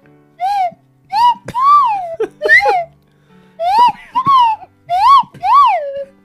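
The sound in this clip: Slide whistle played in many short sliding notes, each bending up and then down in a bright arch, fairly loud and separated by brief gaps.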